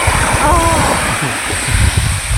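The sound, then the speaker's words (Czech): Sea waves at the seaside in Greece, a churning, rushing wash of water with a rumbling low end that keeps going steadily throughout. “Jo, tak já ti pustím ten starý záznam, co nám Eva poslala přímo, když stála u moře, jo, jestli chceš.”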